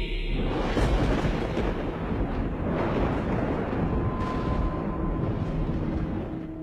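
Thunder rumbles across the sky as a loud, continuous deep roar with a rough, crackling texture that holds steady throughout, with no voices.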